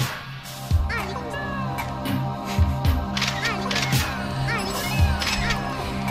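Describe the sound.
Camera shutter release clicks recur as sharp, crisp snaps through an electronic music track about photography, landing at irregular intervals over sustained synth tones.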